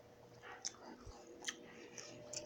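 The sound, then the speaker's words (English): Faint crunching of a person chewing an apple, with a few crisp bite-like clicks spaced through a soft, steady background. “I'm eating, by the way. Sorry if you hear me eating. This apple tastes good.”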